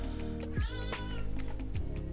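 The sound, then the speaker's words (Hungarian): A cat meows a few times, drawn-out cries that slide in pitch, heard over a steady, dense background. “Az összes macska közül ezen a bolygón. Neked a legrosszabb.”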